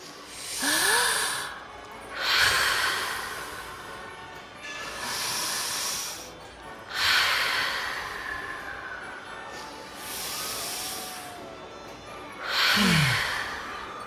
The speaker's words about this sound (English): I can tell you what I do when I'm afraid. I stop and take a big, deep breath. Maybe we can do that? We can try.